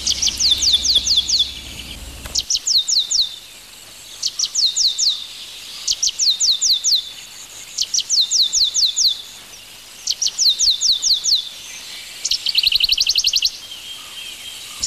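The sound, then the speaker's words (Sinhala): A small ash-breasted bird of Sri Lanka's scrub jungle calls in repeated bursts of high, rapid chirping trills. Each short phrase is separated by a brief pause, and the pattern continues steadily from start to finish. “මේ කුරුල්ලා කවුද, මේ මොකද්ද නගන හඬ? ඔව්, මේ ඉන්නේ ලය අලු හඹ කුරුල්ලා කියන කුඩා කුරුල්ලෙක්.”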